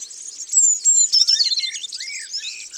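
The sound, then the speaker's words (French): A blue tit sings: high, thin twittering with many quick bright chirps and trills in a steady run, fairly loud and alone with no voices. “Ça, c'est une mésange bleue.”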